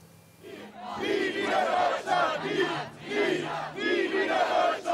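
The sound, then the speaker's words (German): A crowd of roughly 750 demonstrators marches through a city district, loud shouting voices rising and falling in repeated rhythmic bursts of chanting about once per second, steady and dense throughout. “Rund 750 Menschen ziehen aktuell laut Polizei durch die Bremer Neustadt.”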